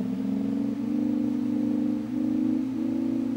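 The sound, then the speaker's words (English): A tape machine plays back a recorded sine wave chord while its speed controller is adjusted: a steady, smooth, low sustained chord of pure tones, slightly wavering and dipping briefly a few times, with no voices. “So that is what I recorded onto this tape. It's just a little sine wave chord. If I adjust the speed controller,”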